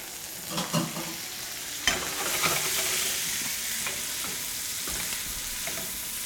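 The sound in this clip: Bacon fries in a pan with its grease partly drained, giving a steady hiss and sizzle. A few scraping knocks from stirring sound alongside it, and no one speaks.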